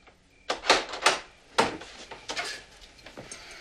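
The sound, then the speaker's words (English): A lock being fastened on a back door: a quick series of sharp clicks and knocks, fairly faint, trailing into softer rattles. “goes to the back door and fastens a lock”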